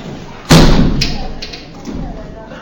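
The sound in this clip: A heavy thud as something is shut: one loud, sudden impact with a short rumbling decay, followed by a few much fainter knocks and rustles.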